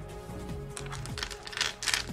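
Ten dice rolled together give a quiet, rapid clatter of dry clicks and knocks, with no talk.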